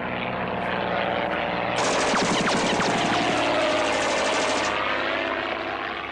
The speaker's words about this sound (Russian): Описав дугу, над склоном пролетает легкий самолет.